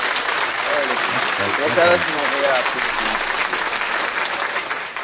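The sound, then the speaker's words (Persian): Audience applause for a guest on a show: steady, dense clapping that carries through the whole stretch with voices talking over it, thinning slightly at the very end. “این برای حامد، این برای آقای میتی هم یه دونه دست میزنی.”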